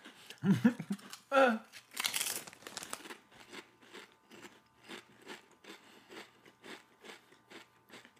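Black bean Sun Chips being crunched: a few loud crinkling, crackly bursts at first, then many steady, rhythmic crunches of chewing that stay fairly soft and regular to the end.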